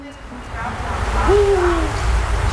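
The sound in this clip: A single eagle owl hoot, from a pair nesting on an apartment block in the city of Šiauliai, sounds over background noise. It is a low tone that rises briefly and then slides slowly downward.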